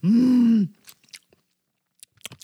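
Chewing on an acai bowl, opening with a steady low voiced hum, followed by a few soft, scattered crunchy bites and mouth clicks, all fairly quiet.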